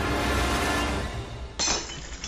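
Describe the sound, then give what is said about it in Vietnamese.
Crash of a flower vase and incense bowl toppling off an altar and shattering on a brick floor: a dense, rattling wash of breakage, then a second sharp burst of shards near the end. “Lọ hoa bát hương đổ xuống nền gạch rồi vỡ tan tành.”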